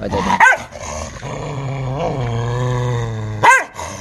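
Dogs growl and fight: a long, low, droning growl runs through the middle, bracketed by two sharp, loud yelping barks near the start and end.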